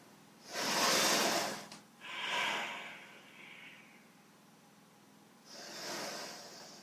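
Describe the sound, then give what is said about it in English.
Deep breathing in and out during a stretching exercise routine, a few soft, airy breaths, each a quiet hissing rush of air separated by short pauses. “Big breaths in, big breaths out.”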